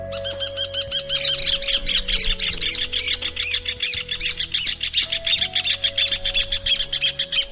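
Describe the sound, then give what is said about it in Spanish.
A pair of rufous horneros sings a duet: loud, rapid, harsh chirping calls pour out in a dense, continuous chattering stream. A faint low tone holds steady underneath. “El hornero tiene la particularidad de cantar con su pareja a dúo.”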